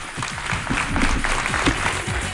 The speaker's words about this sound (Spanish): Para que sepan que están ustedes ahí, la manera de saludar es un aplauso.